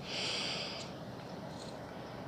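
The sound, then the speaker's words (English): A deep breath drawn in, heard as a soft, breathy hiss that holds steady for just under a second and then eases away into quiet. “Breathe in.”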